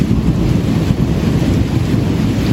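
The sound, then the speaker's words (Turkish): Thunder rumbles through a heavy evening downpour in Ankara. A loud, dense low roar runs unbroken from start to end, with the hiss of pouring rain layered over it. “Başkent Ankara'da akşam saatlerinde kuvvetli sağanak etkisini gösterdi, yağış gök gürültüsünü de beraberinde getirdi.”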